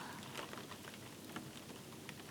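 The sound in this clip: Steady rain falling, a constant soft hiss with faint scattered patter throughout and no voices.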